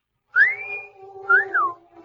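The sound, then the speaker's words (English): A person gives a two-part whistle aimed at a girl. The first note rises and holds. The second climbs and then swoops down, clear and alone, with no talk. “whistle was for the girl.”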